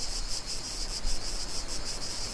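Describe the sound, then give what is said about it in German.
Cicadas chirping in southern France: a dense, continuous high-pitched insect buzz that pulses in a steady rhythm. The buzz plays alone over a faint low rumble. “Hört ihr den Wind? Hört ihr die Zikaden?”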